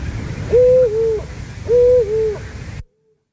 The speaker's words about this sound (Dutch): dat zijn 2 verschillende vrouwtjes vlak achter elkaar geplaatst. Maar je hoort het bijna niet. Dat klopt. Maar het zijn 2 verschillende oehoes.